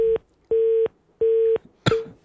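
Tone from a telephone line that has just been cut off: three evenly spaced steady beeps with short gaps, ending with a sharp crackling click burst.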